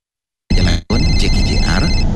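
Mobile phone ringtone bursts in loudly after half a second of silence, a dense, busy electronic melody that cuts out briefly and then resumes, continuing to the end.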